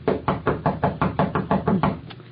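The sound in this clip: Knocking on a door: a long run of quick, evenly spaced raps, loud and sharp, with a brief pause before the final knock.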